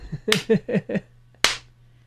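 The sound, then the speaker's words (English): Hand claps from a player during a game session: a few quick, sharp claps in a row, then a short pause and one final crisp clap, with no talk over them. “That's the slow clap. I invented it in this dimension.”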